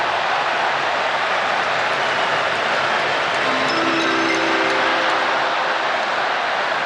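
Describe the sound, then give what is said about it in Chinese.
A train-arrival sound effect plays over a football match broadcast when another game's score changes. A steady, loud, broad rushing rumble carries a brief cluster of squealing tones midway through. “大家通过转播方面应该不断能够听到，像列车到站的声音啊，因为另外一场比赛比分一直在变化。”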